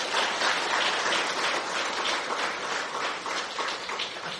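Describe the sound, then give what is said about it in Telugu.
Fairly faint, continuous applause from an audience at a spiritual discourse, clapping to affirm a pledge. Many hands blend into an even, dense patter that holds steady throughout. “అందరం ప్రతి ప్రాణిని ప్రేమిద్దాం, ఎవరి మీద ద్వేషం పెంచుకోం, రాగద్వేషాలకు అతీతంగా ఉంటాం అని సరిగట్టే చప్పట్లు కొట్టండి.”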